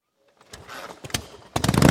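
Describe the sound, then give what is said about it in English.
A Harley-Davidson motorcycle with loud pipes rumbles and revs in rough bursts that swell loudest toward the end. “Can your bike bring the thunder? Can your bike bring the thunder? Join Appleton for our famous Loud Pipes contest.”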